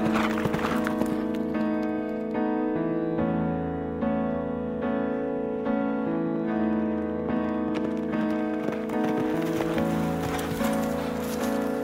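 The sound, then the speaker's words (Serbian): Horse hooves clip-clop in a steady, even rhythm for about twelve seconds, clear and moderately loud with no talking. “Konj.”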